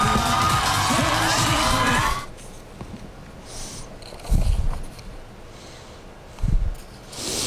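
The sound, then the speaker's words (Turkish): A crowd cheering and whooping at a celebration in Budapest of a new government's era: loud, dense cheering for about two seconds, then a quieter background with a couple of brief louder bursts. “İşte Macaristan'ın yeni ekibi, yeni yönetiminin yeni dönemi coşkuyla kutladığı anlar başkent Budapeşte'den tüm dünya gündemine bu görüntüler yansıdı.”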